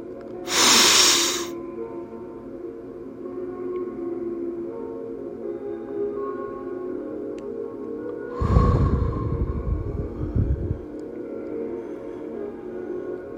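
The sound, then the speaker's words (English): Slow, deep breathing: a brief airy hiss of breath, then after a long quiet pause a longer, heavier rushing breath, both soft against a faint steady background. “let's do our commemorative breath and come back to ourselves.”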